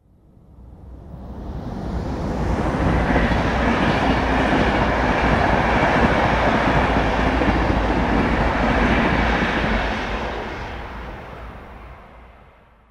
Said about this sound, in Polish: Tu słyszymy przejeżdżający pociąg osobowy, ale teraz wzdłuż torów zamontowano ekrany akustyczne.